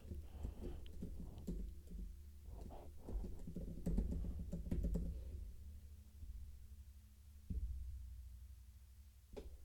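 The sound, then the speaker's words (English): Typing an email address on a computer keyboard: soft, irregular key clicks over a low steady hum, busiest in the first half and thinning out later. “Got to type in that email address.”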